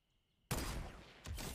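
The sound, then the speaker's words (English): Gunfire from a long-range headshot in the video game Fortnite: after a quiet start, a loud blast rings out and sustains, then a second burst follows. “Oh! Hot damn! That was a headshot!”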